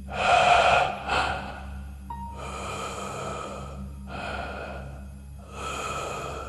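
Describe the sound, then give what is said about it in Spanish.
Slow, heavy breathing close by, heard in the dark. Several long, drawn-out breaths rise and fall in a steady rhythm over a low, constant hum. Nobody talks. “Se quedó en silencio y fue cuando escuchó una respiración cerca de ella.”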